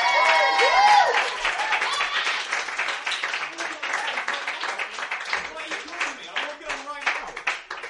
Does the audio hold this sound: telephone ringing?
no